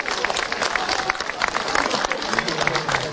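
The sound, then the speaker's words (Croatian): Audience applause for the Folklor Pazin folk dance group's performance: dense, continuous clapping that holds steady at a fairly even level for the whole stretch, without a clear start or finish. “Pa vas molimo još jedan veliki pljesak za folklor Pazin i njihov nastup.”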